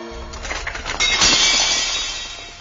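A tray is thrown down and breaks with a clattering crash and bright shattering, which then rings out and fades.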